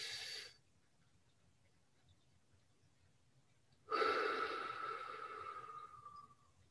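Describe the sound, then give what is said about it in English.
Deep breathing during a breathing exercise: the soft, airy tail of one breath fades out, a few seconds of quiet follow, then one long, steady inhale rises and slowly tapers off. “I want you to inhale for 4, hold for 7, and release on 8. Inhale.”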